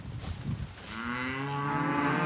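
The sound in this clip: Cattle mooing on a farm: after soft rustling, one long, low, harmonically rich moo swells in and holds steadily to the end, fairly faint overall.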